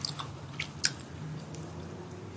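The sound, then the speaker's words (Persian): Someone chews olives that still have their pits. The chewing is faint, with a few soft, wet clicks and squishes spaced irregularly over a low, steady hum. “هسته داره. خب چرا زیتون خالی میدین بخورم؟ هستش رو توف کن.”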